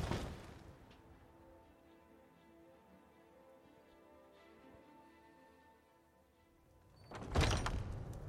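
A door thuds as a player enters a tavern in a video game, one heavy, loud thunk near the end after a long stretch of quiet, steady tonal ambience.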